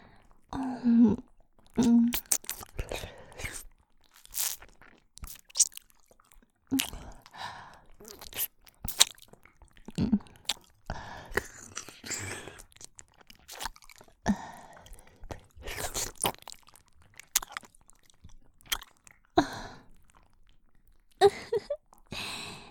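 Someone chewing while snacking: many short, moist, crunchy bursts of mastication come in irregular clusters with quiet gaps between, close and fairly faint throughout.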